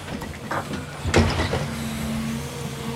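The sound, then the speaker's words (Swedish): An excavator digs its way into the wall of a shaft, its engine giving a steady low droning hum broken midway by one sharp scraping knock, with no voices. “Grävmaskinen började arbeta sig in i schaktets vägg.”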